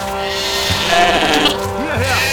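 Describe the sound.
Lambs bleat in a flooded stable, their short, wavering cries rising over a constant noisy wash, with a voice also present.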